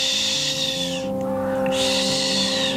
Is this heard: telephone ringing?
no